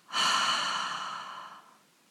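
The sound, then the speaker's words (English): A long, breathy exhale through the mouth during a guided breathing meditation, released after holding the breath with the whole body tensed. It swells quickly, then slowly thins and fades, with no voice over it. “Tense the whole body while you hold the breath, and double exhale through the mouth.”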